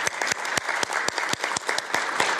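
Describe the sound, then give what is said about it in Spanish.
Audience applause thanking an ambassador after his presentation, a steady, dense patter of many hands clapping with a few sharp louder claps popping out. “Agradecemos ao embajador Benedito com aplauso.”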